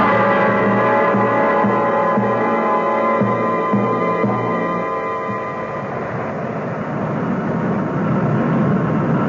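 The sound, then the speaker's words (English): An airplane coming in to land gives off a steady, loud engine drone with a low, even hum. It softens and roughens slightly partway through and continues without voices. “They're coming in for the landing now.”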